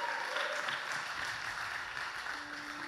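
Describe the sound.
Audience applause at a church anniversary gathering, a faint, steady wash of clapping with a brief tonal hum near the end and no clear talking.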